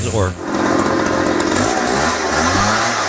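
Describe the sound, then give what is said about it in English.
A weed whacker or leaf blower runs outside: a continuous, loud, buzzing small-engine drone with a rough, steady tone that holds for the whole stretch. “Just hearing the sound of a weed whacker or blower gives me anxiety. Oh, see, like that sound right there?”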